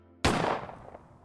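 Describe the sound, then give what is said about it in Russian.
A revolver fires a single gunshot in a valley, a loud, sharp blast with a sudden onset and a rumbling decay that fades over about a second. “Он нажал спуск.”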